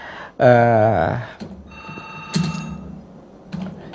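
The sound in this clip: A telephone rings with a loud, buzzy burst of tone, followed by a couple of fainter, shorter ringing tones over a quiet background.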